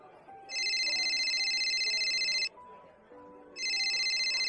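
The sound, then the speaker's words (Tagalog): An electronic phone ringtone signals an incoming call: a bright, high-pitched warbling tone plays in one long burst of about two seconds, pauses, then starts again and runs to the end. “Sino ba naman tong tawag ng tawag na to?”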